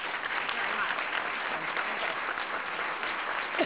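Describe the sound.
Applause from a press club audience welcoming Peace Corps Director Carol Bellamy: a dense, steady wash of clapping that holds at an even level for the whole stretch, with no distinct voices on top.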